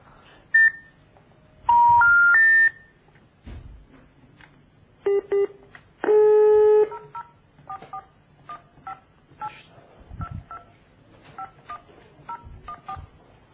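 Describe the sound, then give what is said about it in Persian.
Telephone keypad tones dialing a call to the Kalameh network: a few beeps, including a quick rising run of three notes and a longer held tone, with scattered clicks in between. “داریم تماس میگیریم با شبکه کلمه.”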